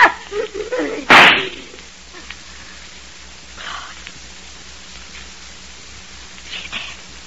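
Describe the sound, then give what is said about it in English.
A single sharp, loud gunshot cracks out right after a few brief voices, followed by near quiet with faint low background noise. “But in just 2 seconds, I'm going to shoot you right through the heart.”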